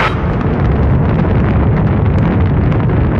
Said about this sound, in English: Start landing sequence. Fire up afterburners.